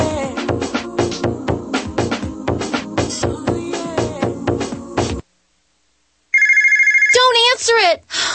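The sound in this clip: A telephone rings for an unwanted debt-collection call: a bright, warbling electronic ring starts after a short silence and repeats in quick pulses, following a busy stretch of music at the start.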